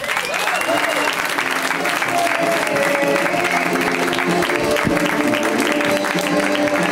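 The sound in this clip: Loud audience applause that carries steadily through the whole stretch, a dense wash of clapping with voices mixed in.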